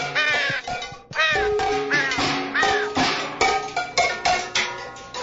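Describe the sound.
A bird call sound effect of harsh, crow-like cawing and squawking cries, repeated many times in quick succession, loud and nearly continuous.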